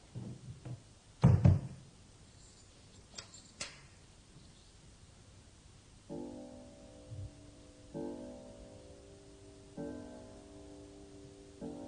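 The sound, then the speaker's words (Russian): Doors being closed at an exhibition at the end of the day: a few sharp knocking thuds, the loudest near the start, followed by quieter sustained low tones that come and go. “Закрывайте двери.”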